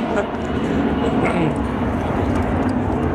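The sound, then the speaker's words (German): An Airbus airliner flying overhead produces a steady, broad, rumbling roar that holds at an even loudness throughout. “falls ihr mich hört, jetzt fliegt gerade ein Airbus hoch.”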